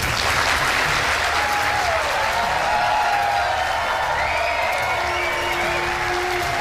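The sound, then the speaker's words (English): Loud applause as a crowd gives Donald Trump a standing ovation at a Republican primary town hall event. The clapping is dense and unbroken, holding at a constant level from start to finish. “He's getting a standing O before he even sits down in a Republican primary town hall event.”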